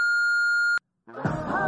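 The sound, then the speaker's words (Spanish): A phone call tone before voicemail: one steady, pure electronic beep holds for under a second and cuts off abruptly. A short silence follows, then a recorded voice begins speaking. “Pero es que la he llamado y no me coge el teléfono.”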